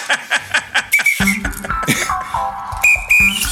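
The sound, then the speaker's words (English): A whistle whose ball has fallen out, giving a few short, thin, breathy tones that fail to trill, with other breathy and voiced sounds between them. “Oh, that didn't work. Uh-oh. Well, anyway, my ball fell out of my whistle.”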